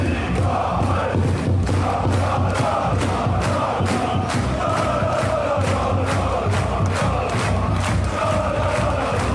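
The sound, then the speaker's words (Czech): Schalke football fans chant loudly in Gelsenkirchen, celebrating a 1–0 win over Düsseldorf. A steady rhythm of claps or beats runs through the continuous crowd chanting and cheering. “Fotbalisté Schalke mohli začít slavit v sobotu večer, když porazili Düsseldorf 1-0. Hodně hlučno bylo na stadionu, ale i v ulicích Gelsenkirchenu.”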